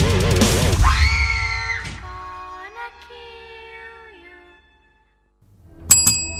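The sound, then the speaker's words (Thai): A single bright bell strike rings out near the end, with a sharp attack and high ringing overtones. It follows a scream-like opening and several seconds of steady, wavering tones. “ผมเคาะกระดิ่งตีละครั้งเรียบร้อยนะครับ”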